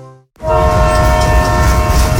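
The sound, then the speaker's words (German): A loud, sustained multi-tone train horn begins after a brief pause and holds steady over the rumble and clatter of a railway train. “Seit 120 Jahren verbindet die Finschka Bahn Menschen, Orte und Geschichten.”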